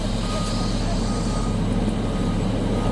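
Steady engine roar of heavy work machines clearing metres-high snow from a mountain highway in Türkiye closed to traffic for about five months, a constant, even drone throughout with a faint reversing-beep tone.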